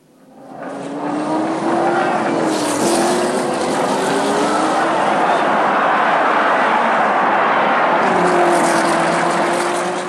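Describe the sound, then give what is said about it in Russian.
Race cars speed along during a race in a loud, continuous engine roar with whining tones that shift in pitch, and a fresh surge of sound near the end. “I know. It's a race.”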